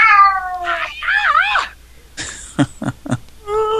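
A cat meows in drawn-out, wavering cries that bend up and down in pitch, followed by a few short sharp clicks and a final steady, thinner mew, fairly loud throughout.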